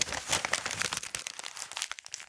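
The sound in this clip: A sheet of paper is crumpled: a continuous stream of many crisp crinkles and crackles that thins out toward the end, with no voices.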